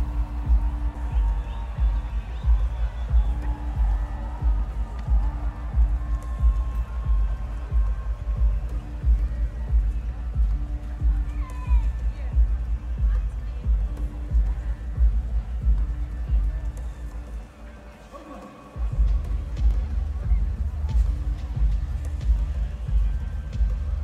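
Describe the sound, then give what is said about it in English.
A distant music festival comes through as a steady, muffled throbbing low beat with a faint crowd wash over it. The sound dips briefly near the end before resuming. “And hear the sound of a distant music festival.”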